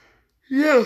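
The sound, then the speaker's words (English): A tired person yawns once, a short, breathy, voiced groan that swells and falls away after near silence. “Sorry that like half of this video is us yawning. We're both tired.”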